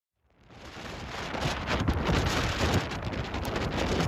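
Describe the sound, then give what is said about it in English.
Strong winds of an Atlantic storm batter England's southern coast, gusting at record speeds up to 122 miles an hour; a dense roar of wind rises out of silence within the first half-second, then stays loud and rough throughout. “That's the sound of Storm Eunice, bearing down on the southern coast of England as some parts of the country were met with record winds of 122 miles an hour.”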